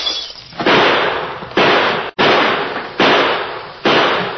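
Rifle and revolver gunshots in a shootout: five sharp, loud blasts at uneven intervals, each with a long, hissing tail that fades until the next shot, with no voices.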